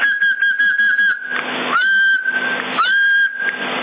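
Whistling into a CB radio microphone, heard as thin, band-limited tones over the radio link. Several sustained whistled notes come with a couple of short pitch swoops against a steady hiss.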